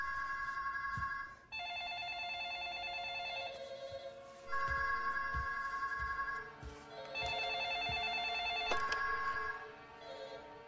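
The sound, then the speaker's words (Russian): All the telephones in an office ring at once, overlapping electronic trilling rings in repeated bursts with brief gaps, steady and fairly faint throughout. “Звонят все телефоны офиса.”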